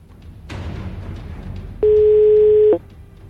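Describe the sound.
A single telephone ringback tone sounds on an outgoing call, a steady electronic buzz lasting about a second over faint background noise.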